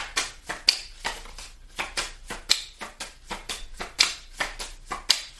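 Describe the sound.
Playing cards are dealt during a card game, making a quick, even series of many soft, crisp snapping flicks that repeat roughly three times a second with no voices over them.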